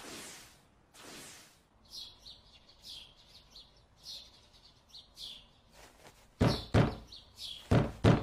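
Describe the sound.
Knocking on a door arrives as a few loud, sharp raps near the end, while birds chirp repeatedly in the background throughout.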